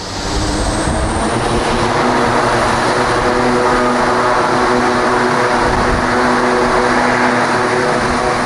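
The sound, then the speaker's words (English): Propeller aircraft engine noise, a loud and steady drone with a strong harmonic hum that stays constant throughout, alone and without voices. “Well, Rob, how can you dare say that any aircraft is too loud? You'll be saying next that those darn jets are too noisy at those darn air shows. What sort of an airplane geek complains about the noise?”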